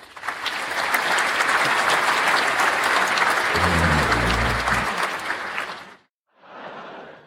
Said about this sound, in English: Thank you, thank you. You're too kind. Though I must say this studio audience is far more lively than the one at my last show in Skegness.